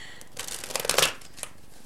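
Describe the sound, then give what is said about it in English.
Cards from a Witch's Tarot deck are shuffled in a quick riffling flurry that builds to a crisp peak, followed by a single faint flick of a card being drawn. “So let's go ahead and get some cards from the Witch's Tarot.”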